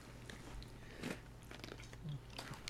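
Quiet, crunchy chewing of Sugar Pops, a sugar-coated breakfast cereal, with several irregular bursts of crisp crunching as the pieces are bitten and ground down.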